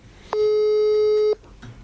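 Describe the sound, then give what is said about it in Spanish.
A telephone busy signal on an outgoing call: a single steady, loud tone lasting about one second, with quiet noise before and after. “lo estoy llamando a Lito Ming”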